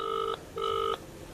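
Ringback tone of an outgoing telephone call: two electronic ring bursts with a short gap between them, each about a third of a second long, fairly loud and heard alone.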